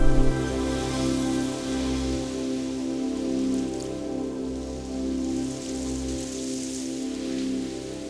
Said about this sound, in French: Oh, regardez, il pleut.